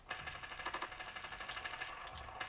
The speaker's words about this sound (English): Dude, these people have, like, fucking, like, they are able to withstand more damage or some shit, because I'm shooting these motherfuckers in the face.